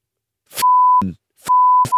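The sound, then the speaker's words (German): Censor bleep tones cut into conversation: two steady, mid-pitched electronic beeps, each roughly half a second long and loud, with short clipped bits of voice around them. “Ja, piep das mal.”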